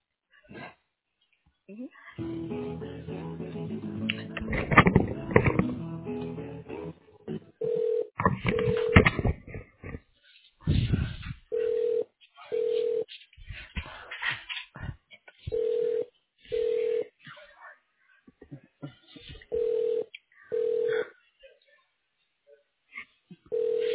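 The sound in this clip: Ringback tones on a phone line as a call is transferred to a voicemail box at a hospital office: after a few seconds of muffled voice, a steady mid-pitched tone repeats in regular short bursts separated by silence.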